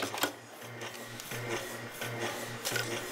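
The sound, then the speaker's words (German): Covers being nailed onto Marine Band harmonicas in a factory: a few sharp taps and rasping knocks over a steady low mechanical hum, with no voices. “Und der Arbeitsgang hinten links, wenn man den erkennen kann, das ist die Dame, die die Deckel auf diese Mundharmonika draufnagelt.”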